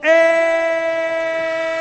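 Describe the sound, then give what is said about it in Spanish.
A sustained, harmonically rich train-horn tone from a sports radio jingle starts sharply and then holds steady and strong for nearly two seconds without breaking. “¡Tren de marcador! El tren de Radio Marca es radio.”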